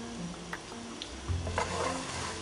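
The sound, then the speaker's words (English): A spoon stirs stewed tomatoes mixed with turkey meat in a pot, making soft, wet scraping and squishing sounds over a faint sizzle. “So I'm gonna stir my little stewing tomatoes that are mixed in with my turkey meat now.”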